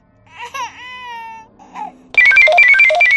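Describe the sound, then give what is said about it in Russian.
A radio call signal rings out loudly and suddenly as a rapid run of bright electronic beeping tones, cutting in right after an infant's wavering wail. “Оглушительно грянул звонок радиовызова, и у меня от неожиданности едва не выскочило сердце.”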